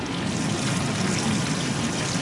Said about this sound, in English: And over here we've got some water.